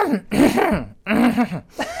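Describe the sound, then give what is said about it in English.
A voice imitates a woman's throat clearing, which is said to sound like a Muppet: two gravelly, voiced rasps with a wavering pitch, then the start of a third, loud and separated by brief gaps. “When my wife clears her throat, she sounds like a Muppet, and I think it's the funniest thing on earth. Well, then obviously you can mimic that then too.”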